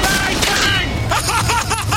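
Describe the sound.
Rapid gunfire from a comic Kitchen Gun cleaning spray in a mock advert, bursts of shots crackling over an excited voice that talks throughout.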